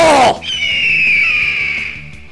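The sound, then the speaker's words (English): An eagle screech sound effect starts with a brief loud burst, then holds as a long, piercing, high-pitched cry that falls slightly as it fades. “Coming to save the motherfucking day, yeah! Eagle!”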